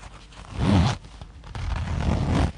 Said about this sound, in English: One time, we were doing up the fly of our pants, and the zipper made a zip sound like this.